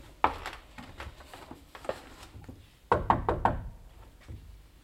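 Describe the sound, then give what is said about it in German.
Knuckles knock on a rented room's door in a guesthouse corridor: faint, sharp raps in two bursts, the second a quick run of four knocks. “Sie meint, der wäre noch da. Klopfen wir nochmal.”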